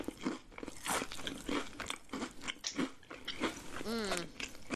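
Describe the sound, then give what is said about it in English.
Crunchy chips are bitten and chewed in quiet, close crackling crunches that come in quick, irregular bursts, with soft mouth sounds between the bites. “Just some good chips.”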